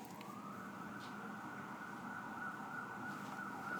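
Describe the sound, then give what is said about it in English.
Ambulance siren sound effect, a faint, continuous high-pitched wail that climbs briefly at the start and then holds a sustained tone for nearly four seconds, with no talk over it. “there's the high tech sound we put in of ambulances.”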